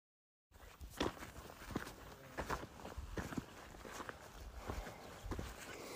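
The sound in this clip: Footsteps of a hiker climbing a steep rock face on a desert trail in the Sacramento Mountains at noon. A steady series of moderately loud scuffing steps on stone, with no talk.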